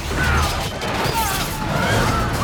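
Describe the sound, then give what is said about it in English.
A huge wave smashing across the full length of a ship with colossal force, a loud, broad, sustained roar of crashing water that holds steady throughout without a distinct single impact. “The wave breaks across the full length of the ship, smashing into it with colossal force.”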